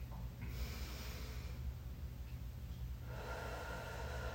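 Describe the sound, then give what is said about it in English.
A person relaxing in a bath takes slow, deep breaths, heard as two faint, airy rushes of air separated by a quiet gap, over a steady low hum. “I put my hand on my chest and I'm taking a few more breaths now.”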